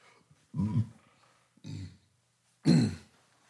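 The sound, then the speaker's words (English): A burp, heard as three low, guttural voiced bursts separated by short pauses, the last one the loudest, alone with no talking. “Excuse me for burping like that.”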